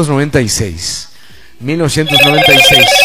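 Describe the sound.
A telephone rings with an incoming call to a radio show. Steady warbling electronic ring tones begin partway through and continue under people talking.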